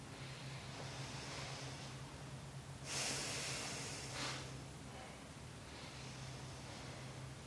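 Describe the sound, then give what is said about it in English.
Slow, deep breathing during a yoga session lying on the floor. A few faint, airy inhales and exhales are spaced well apart, and one stronger breath stands out in the middle. “Back to your breath. Slow, deep breaths in and out.”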